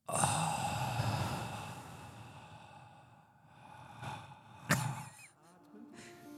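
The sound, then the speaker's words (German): A group of people breathe together, a long, soft, airy rush of breath followed by a shorter breath, faint and without talk. “alle zusammen traditionell alle einmal tief einatmen und ausatmen”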